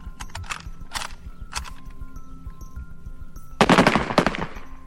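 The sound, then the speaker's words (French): Rifle shots from a firing squad at a fort execution: a few sharp, separate cracks, then a louder, denser volley near the end, all over a steady low background rumble. “Les membres du peloton d'exécution du fort de Montrouge s'alignent, chargent leurs fusils et pressent la détente.”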